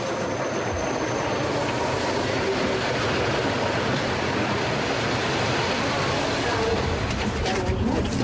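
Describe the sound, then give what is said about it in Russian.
An electric commuter train pulls into a railway station platform where people stand waiting, giving a loud, steady rumble of rolling wheels and rail noise that holds evenly throughout. “Платформа железнодорожной станции. Стоят люди, подходит электричка.”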